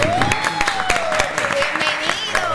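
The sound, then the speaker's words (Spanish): Applause greeting a guest in a studio, rapid overlapping claps in a dense burst with a sustained tone running beneath them. “aplauso.”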